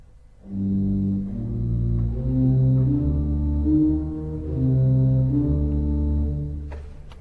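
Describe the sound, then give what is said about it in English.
Organ pedal ostinato from the opening movement of an organ concerto: deep, loud sustained bass notes step through a slow repeating figure, heard alone without talk. “So that opening movement also contains a pedal ostinato, which sounds like this.”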